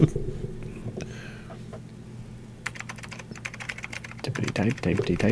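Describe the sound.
Typing on a computer keyboard: a rapid run of many light clicks starts partway through, over a low steady hum.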